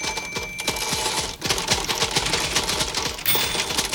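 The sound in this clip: Typewriters clattering together in a rapid, dense stream of sharp mechanical keystrikes and clacks, loud and continuous for four seconds, with no voices.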